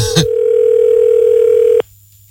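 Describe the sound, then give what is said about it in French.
Steady telephone dial tone while a number is redialed. It starts after a short click and holds one level pitch for about a second and a half before cutting off abruptly. “Il a été plutôt rapide à recomposer le numéro de téléphone là, hein”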